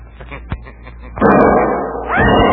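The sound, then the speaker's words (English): A gunshot effect in a 1949 old-time radio mystery drama: a small pop, then a loud, broad burst that rings on, with a second swell near the end. “There are people on the street outside. They'd hear the shot. But that can't be helped.”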